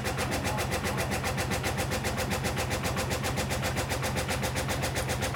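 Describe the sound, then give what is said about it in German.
A washing machine spinning its drum at speed: a loud, steady motor drone with a fast, even pulsing throb and broad rushing noise that holds constant throughout, with no voices. “das ist jetzt das Schleudern.”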